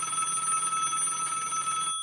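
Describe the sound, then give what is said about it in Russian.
A telephone ringing with a steady, bright, bell-like tone that holds without a break for about two seconds and then cuts off abruptly. “Телефон снова затрезвонил.”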